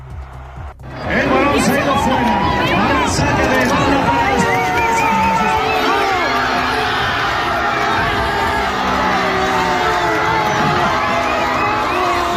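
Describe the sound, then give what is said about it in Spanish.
A crowd packed into Salamanca's Plaza Mayor roars after Spain's 2-0 World Cup semifinal win over France, watched on a giant screen. Loud, continuous cheering, whistling and shouting swell in and hold throughout. “así vivía anoche el público congregado en la Plaza Mayor de Salamanca en España 2, Francia 0 de las semifinales del Mundial de Fútbol que clasifica al combinado español para la final del torneo y que se seguía por pantalla gigante en el Ágora Txarra”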